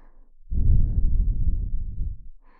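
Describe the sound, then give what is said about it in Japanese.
Breath blown softly toward the listener: one sustained, breathy puff of air with a soft low rumble, lasting about two seconds, with no other sound. “もしこうやってふうふうされているだけで”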